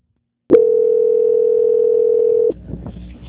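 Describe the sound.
Telephone dial tone after a call is cut off: one steady, loud tone that starts abruptly, holds flat for about two seconds, then stops, leaving faint rustling noise.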